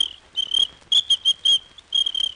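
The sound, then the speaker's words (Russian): A small lady's whistle blown by a traffic officer, giving a series of short, shrill, high-pitched blasts in a stuttering rhythm, loud and with no voices. “У мене для неї був дамський свисточок.”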